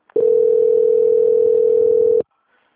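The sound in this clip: A telephone line tone while a call is transferred: one continuous steady note lasting about two seconds that starts and stops abruptly, with no talk.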